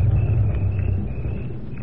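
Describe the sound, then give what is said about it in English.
An approaching car, heard as a steady low rumble that holds evenly for the whole moment, with no voices over it. “Wait. Car. Is it them? I think so.”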